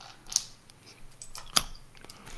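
Crunching of heavily roasted food, jokingly called a pistachio or a cockroach: two sharp, loud cracks stand out among softer, quieter chewing noises.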